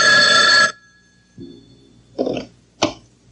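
A telephone rings in a film scene where a threatened woman is receiving a call: one loud, bright ring burst, then near quiet broken by a few soft, low knocks.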